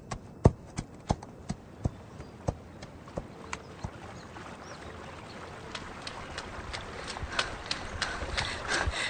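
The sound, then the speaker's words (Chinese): Hooves of the family horse clip-clop as it is led out, many faint, sharp steps, spaced at first and then quicker and more regular toward the end. “行，娟儿。赶紧把咱们家马牵出来。”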